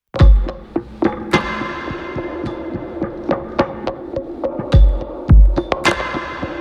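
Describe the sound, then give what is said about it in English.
A layered lo-fi drum track with a sample-driven kick and snare beat under extra percussive layers. Deep booming kicks and sharp snappy hits repeat in a steady groove, with no voices. “I'm gonna play you all the drums later on in the song here. They sound like this.”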